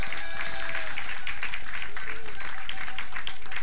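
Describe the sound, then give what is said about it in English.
A church audience applauds in a rapid, dense patter of clapping that runs steadily throughout, with a man speaking over it. “And so let's give our online audience a hand as well.”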